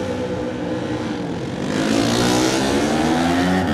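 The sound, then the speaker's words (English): A racing motorcycle sets off at the start of a Senior Classic TT race. Its engine roar is loud and harsh, then rises in pitch and grows louder midway through, with no voices. “So, ladies and gentlemen, here we go. John McGuinness will be your first bike away now.”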